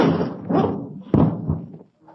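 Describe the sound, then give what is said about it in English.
People throw themselves against a locked door, producing one heavy, dull thud midway through. Voices talk before and after the impact. “It's locked. You're crazy. Why would anybody lock a door in broad daylight? All we have to do is throw ourselves against it. Okay. One, two, three.”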